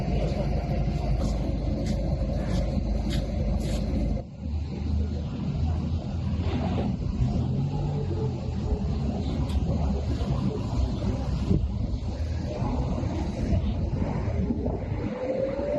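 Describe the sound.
A vehicle drives as its occupants flee while being shot at, giving a steady, loud engine and road rumble with wind buffeting throughout. The noise shifts abruptly a few seconds in, then continues unbroken.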